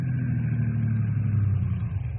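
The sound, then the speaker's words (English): A car drives along a road toward a rangers' roadblock, its engine giving off a steady, low, droning hum at moderate volume with no break. “Here come car now, Bill.”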